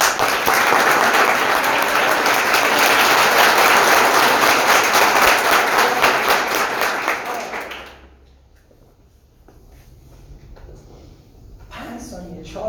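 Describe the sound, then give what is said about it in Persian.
Group applause at a team meeting in an office: many hands clap loudly and steadily for about eight seconds, then stop abruptly, leaving a quiet stretch with faint voices and a few scattered sounds. “یه دست به افتخار اینا بزنید”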